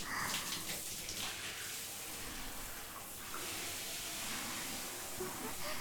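Lukewarm water rinsing shampoo from hair: a continuous hissing rush of running water that stays steady and fairly loud with small shifts in texture.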